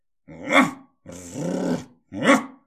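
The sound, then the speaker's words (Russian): A dog growls three times on discovering a person. The first and last growls are short and loud, and the middle one is longer and lower in level, each a rough, throaty call with no talking. “Отозвался пес, обнаружив человека.”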